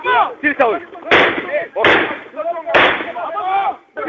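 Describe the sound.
Gunshots from uniformed soldiers firing on civilians in film footage, some at point-blank range: a few sharp, loud bursts that cut through shouting voices.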